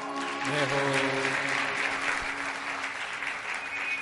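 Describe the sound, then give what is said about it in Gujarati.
A devotional crowd at the Vadtal Dham temple claps together, a steady wash of many hands lasting about four seconds. A voice holds sustained tones over the clapping near the start. “હવે તાળી ઉપાડો”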